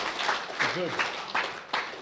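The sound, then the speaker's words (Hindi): Audience clapping in a loose rhythm, a few sharper beats recurring at regular intervals over a continuous patter, with a brief voice heard partway through. “Tali बजाइए, Tali बजाइए, Tali बजाइए, Tali बजाइए.”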